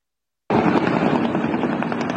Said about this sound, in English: So you can see the fire open up. And there's the helicopter return fire.